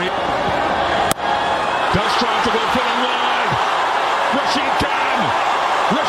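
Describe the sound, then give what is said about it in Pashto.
Fans roar in a cricket stadium after a Gujarat Titans IPL win, a dense, loud, continuous crowd din with voices rising through it and one sharp bang near the start. “په لوبغالی کې د ګجرات ټایټانز لوبډلې د بریا له امله د مینوالو د خوښۍ شور.”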